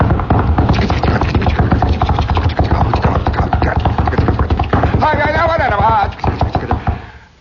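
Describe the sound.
A voice imitates a drum beaten with a long stick curved like a fish hook and tipped with a round knob. It makes many rapid, rhythmic clacking strokes, with a brief sung tone near the end.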